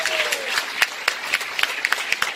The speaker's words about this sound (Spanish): Un aplauso y alabanza.